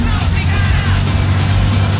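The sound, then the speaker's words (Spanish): Heavy road traffic makes a dense, loud, constant low rumble with a broad hiss above it, and a voice talks over the noise. “Persiste el tráfico.”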